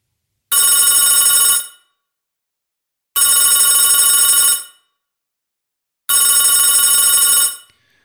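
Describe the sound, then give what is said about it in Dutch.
A telephone bell rings three times while a call is placed to a whisky appraiser. The rings are long, loud and evenly spaced trills with silent gaps between them. “zullen we hem gewoon maar even gaan bellen? We gaan hem even bellen.”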